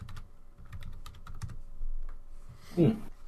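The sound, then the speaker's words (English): Typing on a computer keyboard: quick, light key clicks in uneven bursts with short pauses, fairly faint, ending with a louder thump. “I just had to type a bad joke. All right. We never type good jokes.”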